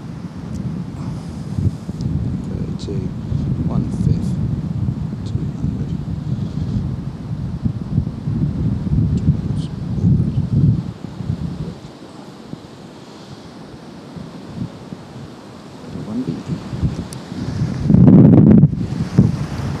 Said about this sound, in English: That's a fucking wind.